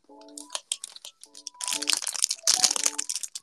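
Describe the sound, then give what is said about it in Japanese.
Crunchy rock candy, a hard sugar candy, bitten and chewed in a series of brittle crackling crunches that thicken into dense, sharp bursts in the second half. “パリパリ聞こえるはず。これはね、グミッツェルですね。で、次ロックキャンディーね。ロックキャンディーが一番やばい。”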